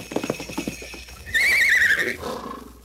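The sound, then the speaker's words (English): A horse-like whinny stands in for a real live reindeer arriving for Santa Claus: a few soft low thuds, then a loud, high, wavering neigh that trails away. “Why, a real live reindeer. And it's just for you.”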